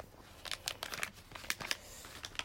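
Plastic wrapper crinkling as a dinosaur fossil excavation kit is unsealed late at night: many short, crackly bursts of rustling and tearing, fairly faint, with no talking.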